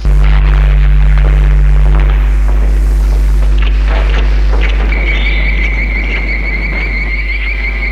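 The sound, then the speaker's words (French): Battle noise from bazookas and flamethrowers in a fight against robots: a loud, continuous deep booming rumble that never lets up, with a high steady whine joining in over the later part. “La bataille fait rage à coups de bazooka, de lance-flammes.”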